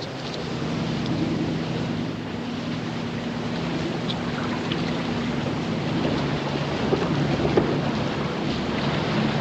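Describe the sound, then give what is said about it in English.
A boat's motor drones steadily as it crosses calm water toward a submarine. The low, even engine hum sits under a constant broad wash of water noise that swells slightly in places. “The teams ferried across calm water to the submarine. Two officers watched the boat approach.”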